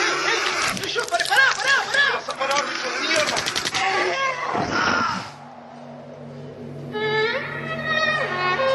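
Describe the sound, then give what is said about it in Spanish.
Gunshot effect in an audio drama, fired at a beetle-like alien creature attacking a soldier during a battle in a stadium. A sharp, loud burst cuts through dense snarling and screeching creature noise, then the sound thins to a quieter background and a voice speaks. “El disparo arroja al soldado hacia atrás, despedazado.”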